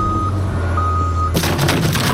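Warning beeps of a crane truck reversing: two long, steady high-pitched beeps over a low engine rumble, then a sudden loud broad rushing noise cuts in and continues to the end.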